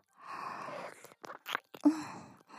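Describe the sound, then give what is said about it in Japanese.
Crunchy food being chewed: quiet, crisp crunches in a few short bursts with brief pauses between bites. “コリコリしてて飲みごたえもあって、ほっても美味しいです。”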